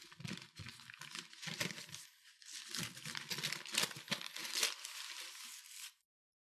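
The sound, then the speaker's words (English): A bag and tin foil are opened and crinkled for a food taste test, producing continuous bright rustling and crackling with a few louder crunches before stopping abruptly. “I want you to open the bag and reveal what we are taste testing tonight live on the air.”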